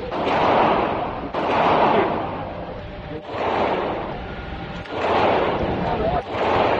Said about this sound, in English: One shot for one trigger pull. You kind of have 1 foot back. And this arm, you want to have both arms straight.